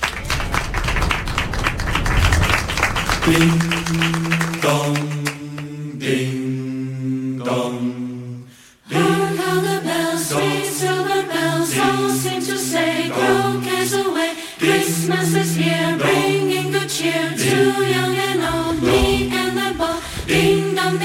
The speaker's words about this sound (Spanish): Ya hemos puesto, hemos puesto algunos villancicos en el programa, pero este que está sonando nos ha llamado muchísimo la atención. La OTAN ha elegido un villancico ucraniano para felicitarle la Navidad al mundo.